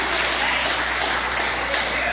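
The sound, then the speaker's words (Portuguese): A church audience applauding during a service, a steady, dense wash of clapping that holds at an even level for the whole stretch without a break. “Adore o Senhor com palmas. Pode adorar o Senhor com palmas, igreja.”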